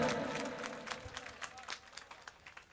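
Faint audience applause in honor of a man asked to stand. It starts as a fuller patter, then thins out into scattered individual claps that fade away.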